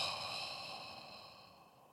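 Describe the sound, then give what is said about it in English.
One long, soft exhale, a deep breath blown out during a guided meditation, fades gradually over a steady humming tone. “Take a deep breath in and blow into your throat chakra region.”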